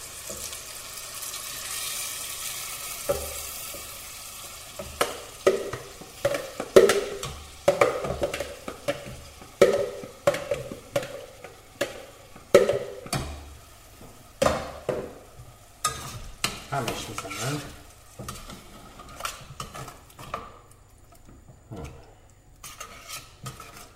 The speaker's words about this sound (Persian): خیلی نمیخوام تختش بدم، فقط همین که روهاش یک کوچولو سرخ بسته تو میخوام بپزمش. خب گوجه ای که رنده کرده بودم رو اضافه میکنم بهش.